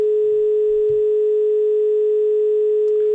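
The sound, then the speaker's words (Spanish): A telephone line tone on a live phone call: one steady, unbroken mid-pitched hum that holds for about three seconds. “Está perfecto, está comunicando en estos momentos. A ver qué pasa.”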